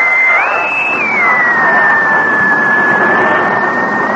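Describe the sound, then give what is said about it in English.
A streetcar running along: a steady, loud rumbling roar with a high electric whine that rises briefly, then drops and holds level under the continuous noise. “I hear something. It sounds like a streetcar.”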